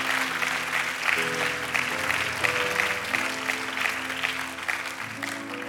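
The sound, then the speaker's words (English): Warm audience applause, a steady wash of many hands clapping without a break, with low sustained music notes underneath. “Come on, let's applaud everybody else for being a gift to us.”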